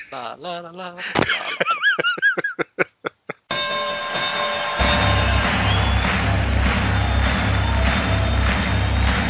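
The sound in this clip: An intro jingle plays: warbling tones give way to a run of separate bell-like hits, then a sustained, dense musical bed with a low rumble underneath.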